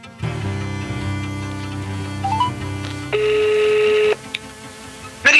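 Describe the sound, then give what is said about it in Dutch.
A telephone is dialled to place a call. A few short electronic beeps are followed by a steady, loud tone lasting about a second, all over a low hum, with a brief click at the end. “Ze belt als eerste met Isis, een van de onderzoekers van Bureau de Pin”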